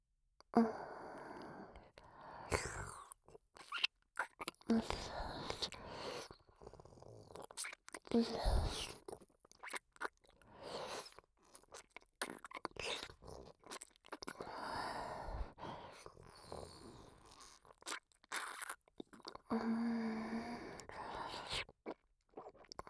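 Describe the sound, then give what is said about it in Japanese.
Close, intimate drinking and swallowing sounds, many soft wet mouth noises and breathy sighs in an irregular rhythm, quiet and alone without talk. “それじゃあ飲むとこちゃんと聞かせてあげるね。”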